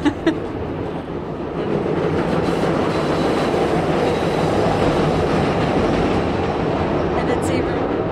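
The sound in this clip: A Chicago CTA L elevated train passes near a house. After a brief onset the sound swells into a loud, sustained rumble with rail clatter and metallic wheel noise, holding steady for several seconds.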